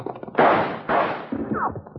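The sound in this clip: Gunfire in a Western radio drama: two loud, sharp shots in quick succession, then a softer third report and a brief falling whine, all over a low background.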